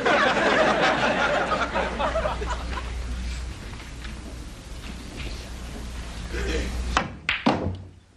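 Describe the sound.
Pool balls clack as the seven ball is shot into a corner pocket: a couple of sharp knocks close together near the end, after a stretch of noisy background.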